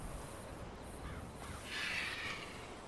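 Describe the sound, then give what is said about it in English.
A crow gives a brief, harsh caw partway through, fairly faint against a steady background hiss. “Ooh, birdie.”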